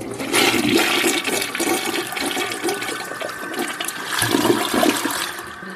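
A toilet flushes during a pee break, with a steady rush of water lasting about six seconds that swells again near the end, heard alone without talk.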